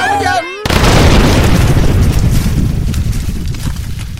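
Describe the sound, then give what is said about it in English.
A glowing red-hot book explodes in a sudden, loud blast that rolls on as a long, dense rumbling roar, just after a short vocal sound. “Hey, everyone, the book! It's glowing red hot! I think it's gonna blow!”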